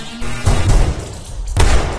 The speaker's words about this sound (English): Gunshots.